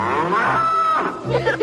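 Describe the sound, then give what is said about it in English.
A cow gives a single drawn-out, low, harmonic moo lasting over a second, fairly loud and unbroken, with a rougher, wavering tail at the end. “C is for cow. There's a cow in my alphabets.”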